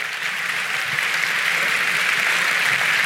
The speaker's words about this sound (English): Let's give him a really warm Mount Pleasant welcome as he comes to share with us today.